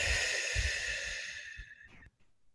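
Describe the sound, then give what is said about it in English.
A long, deep breath drawn in during a guided breathing exercise. It is an airy, steady hiss lasting about two seconds that fades and then stops, soft and alone. “Take a deep breath.”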